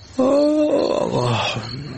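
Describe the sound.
A dog growling at night: one drawn-out, rough, tonal snarl of about a second and a half, loud and alone.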